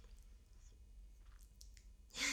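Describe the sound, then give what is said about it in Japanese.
Faint, quick chewing of small pieces of bacon eaten hungrily, with soft wet clicks and squishes at a low level, ending in a sudden louder burst. “お腹空いてて勢いよく食べちゃった、はあ、ちっちゃいベーコンがいっぱいまだ”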